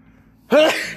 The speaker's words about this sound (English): I'm about to sneeze.